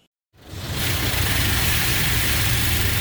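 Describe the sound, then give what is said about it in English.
A car wash sprays soapy water over a car's windshield in Central Florida, a loud steady rushing hiss over a low rumble that starts abruptly after a brief silence and holds constant. “The loud and rhythmic sounds of car wash, soapy suds spraying and cascading down the car windshield, are a common refrain across Central Florida this time of year.”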